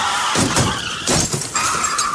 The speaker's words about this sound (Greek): Όπα, με συγχωρείτε, έρχεται ένα φορτηγό απάνω μας.